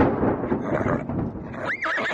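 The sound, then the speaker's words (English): A horse whinnies, one of four horses drawn up with a calèche, a horse-drawn carriage; a rising and falling neigh stands out near the end over a dense, rumbling background. “A calèche with four horses had drawn up beside us.”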